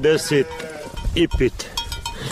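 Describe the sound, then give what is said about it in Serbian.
Sheep bleating from a flock of about 55 plus lambs let out onto snow-covered meadows, a few wavering mid-pitched bleats in two short bursts while a person talks. “Izlazi iz kuće, kaže ovce ne čekaju, pušta ih na snijeg koji je ovih dana pokrio livade, pa se troše i zalihe sjena.”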